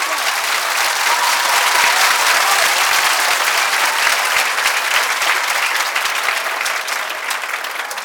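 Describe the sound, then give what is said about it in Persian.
Wedding guests clap at a celebration, producing dense, loud, continuous applause that holds steady for about eight seconds. “محکم دست بزن”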